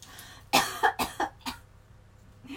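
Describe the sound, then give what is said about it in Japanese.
Five short, harsh coughs in quick succession from a person who choked while doing laundry, the first the strongest, with a faint background hum and no talk. “むせてしまった”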